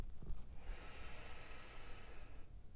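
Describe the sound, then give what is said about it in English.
A deep inhale that fills the belly: one long, soft, breathy hiss that rises in and holds steady for about two seconds before easing off. “Take one last inhale, fill up the belly all the way.”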